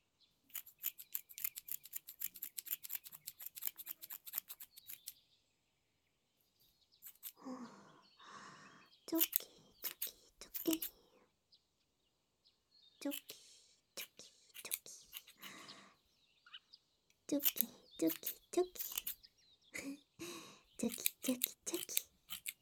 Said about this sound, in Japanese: 耳のところを切るので、動いちゃダメね。